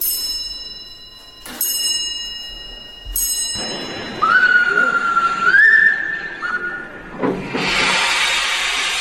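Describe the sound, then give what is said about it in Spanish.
A steam locomotive whistle, from the engine that pulled the first train on the Iberian Peninsula, gives a sustained shrill tone that steps up in pitch. Two sharp ringing metallic strikes come before it, and a loud rushing hiss follows. “el sonido después de la locomotora que tiró de ese tren”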